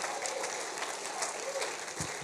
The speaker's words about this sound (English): Can we give the Lord a round of applause?